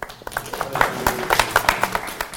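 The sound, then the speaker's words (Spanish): Sparse hand clapping from a small group applauding a student during a Bible lesson, with distinct claps in a quick, slightly uneven rhythm. “Un aplauso para Dani.”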